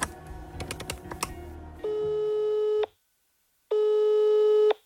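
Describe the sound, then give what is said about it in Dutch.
Telephone line tones while a police emergency number is dialed in Germany: a flurry of button clicks comes first, then two long, steady electronic ring tones separated by a silent gap, with no one talking. “Hij rent de trappen naar zijn praktijk op en belt via noodnummer 110 de politie van Gladbeck.”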